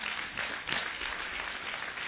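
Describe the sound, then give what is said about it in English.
Church audience clapping as an offering during a service: dense, steady applause of many hands, fairly faint and even throughout, without pauses. “Give the Lord a clap offering, somebody.”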